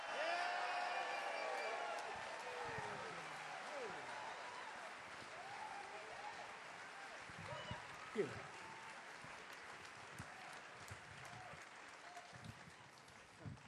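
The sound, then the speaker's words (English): Applause at the Carolina Theater in downtown Durham welcoming the Nashville Bluegrass Band, a faint sustained wash of clapping with scattered whoops and talk over it, slowly tapering. “Welcome them to the Carolina Theater, downtown Durham. Give them a big hand.”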